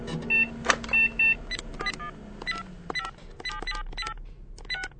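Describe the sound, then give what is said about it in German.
A mobile phone number being dialled: a quick run of many short keypad beeps in an uneven rhythm, fairly clear over a low background hum with no talk. “ruf jetzt bitte Paula an. Du hast doch ihre Handynummer.”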